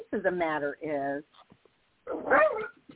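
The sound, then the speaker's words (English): A dog barks and whines at a FedEx delivery man outside a window, giving a few loud, tonal yelps in bursts, with a person talking. “the truth of the matter is I got a FedEx man right outside my window, and that's my dog. I'm sorry about that. He's always very quiet.”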